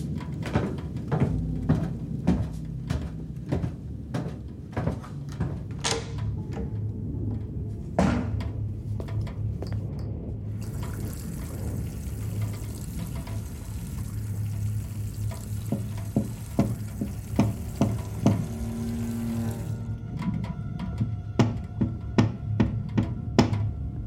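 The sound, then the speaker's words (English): Logs are added to a fire, bringing a series of wooden knocks, clunks and scrapes amid crackling and sizzling, irregular and moderately loud, with sharp taps scattered throughout. “We need to add a few logs to the fire anyhow.”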